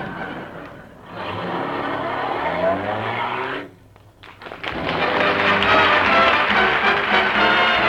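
A taxi drives off with a loud, revving engine and squealing tyres, in two long, noisy stretches split by a brief dip.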